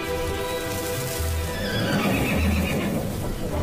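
An unwell horse neighing and stamping a hoof on the ground: a long, wavering whinny runs through the whole clip over a steady background, with dull hoof thuds beneath it.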